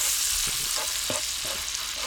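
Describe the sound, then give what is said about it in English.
Small pieces of chicken breast sizzle in butter in a pan, a steady bright hiss broken by a few soft stirring scrapes and clunks, with no talking. “to this sizzling butter. Throw in some chicken. We got to cook the chicken first. Alrighty. We're adding chicken to the butter.”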